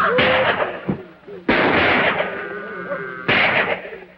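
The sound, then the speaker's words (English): Gunshots fired through a smashed cabin window: three loud, sharp blasts spaced apart, each ringing off into a decaying tail. “He smashes the glass and fires.”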